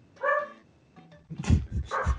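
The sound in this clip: A pet dog in a living room gives a high, whining yelp, then a few gruff barks after a short pause. No one talks over it.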